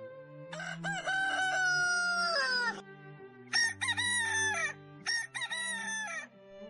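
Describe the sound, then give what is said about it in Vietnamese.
A young rooster crowing at dawn from a straw pile in a yard: one long, wavering crow followed by two shorter ones, loud and clear over a low, steady background drone. “Trời tăng tảng sáng, cũng là lúc chú gà trống choai nhảy ngay lên đống rơm, vươn cổ gáy vang cả một góc sân.”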